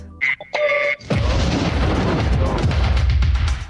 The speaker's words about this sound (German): The heterodyne high quality sound recreation explosion.